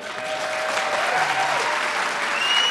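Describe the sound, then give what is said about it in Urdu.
Enthusiastic crowd applauding the president at the White House, with steady, dense clapping from many hands, loud and even throughout without a break. “Report کی تفصیلات کے مطابق white house میں صدر نے پرجوش ہجوم سے خطاب کیا۔”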